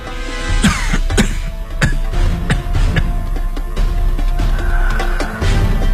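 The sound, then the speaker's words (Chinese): An old man has a fit of coughing: several harsh, rough coughs burst out one after another over a steady low background. “九华老人禁不住一阵咳嗽，苦笑道”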